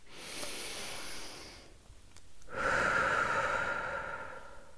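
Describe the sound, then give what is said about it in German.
A deep breath is taken at the start of a relaxation exercise: a soft, airy breath sound is followed after a brief pause by a fuller, louder, sustained breath. “Setze dich bequem hin, nimm einen tiefen Atemzug”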